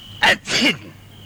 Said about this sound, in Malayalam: പുറത്ത് മഞ്ഞ് വീണ അപ്പ തുടങ്ങും മൂക്കടപ്പും തുമ്മലും.